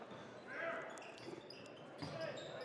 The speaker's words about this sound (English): He's got the dribble.